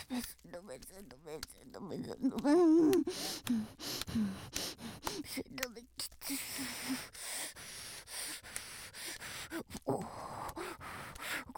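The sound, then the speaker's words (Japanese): A person stretching, letting out a strained, voiced groan and breathy exhalations amid rustling and rubbing noise. “ごめんなさい、ごめんなさい、今背伸びしたばっかりです。”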